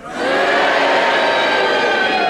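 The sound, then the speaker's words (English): Studio audience at a radio panel game cheering and booing at once, a loud, dense and sustained crowd roar that swells in quickly and holds steady with no talk. “Will you cheer if you think he's dead and will you boo if you think he's alive?”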